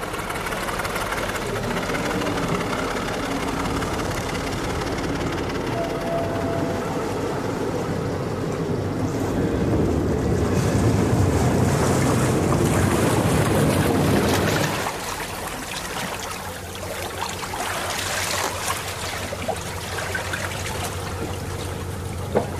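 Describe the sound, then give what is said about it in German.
A Travemünde car ferry docks at its landing on the Priwall crossing. A steady low engine rumble mixes with sloshing water, swells midway, then drops sharply and leaves quieter trickling water. “Zum Schluss war es noch das Anlegegeräusch der Priwalfähre.”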